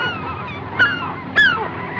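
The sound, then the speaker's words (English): Birds call in two brief, loud honks, the second slightly longer with a falling pitch, over a steady background murmur. “The birds. The birds!”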